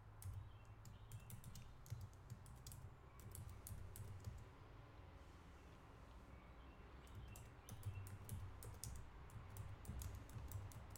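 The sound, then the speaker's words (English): Many quick keystrokes clatter on a computer keyboard in irregular bursts, faint overall, with a brief lull midway and a soft low hum underneath. “You guys know I can't type and talk at the same time, so bear with me.”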